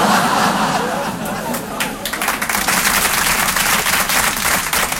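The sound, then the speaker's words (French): A comedy show audience applauds, thick clapping mixed with crowd murmur and voices; the noise dips briefly partway through, then swells back into full, crackling applause. “C'était un piège. J'ai les noms de ceux qui ont applaudi.”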